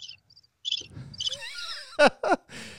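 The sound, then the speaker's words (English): Crickets chirp in short, high, buzzy pulses at the start, then fainter chirping continues beneath a few louder, sharp bursts of other noise. “You can hear the crickets. You can hear the crickets in the background here.”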